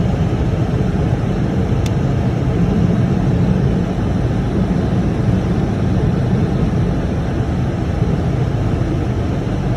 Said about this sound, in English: Here, I want to show you this morning me driving down the road in the state of Minnesota.